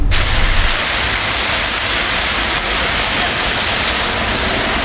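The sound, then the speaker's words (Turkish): Heavy downpour pounding a livestock market in Adana set up before Eid al-Adha, a dense, loud, unbroken hiss of rain that holds steady throughout with no voices. “Adana'da etkili olan sağanak yağış kurban pazarını vurdu.”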